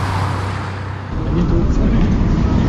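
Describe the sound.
A car drives off fast, taking a minister to his train station. The engine noise swells after about a second and stays loud and rumbling to the end.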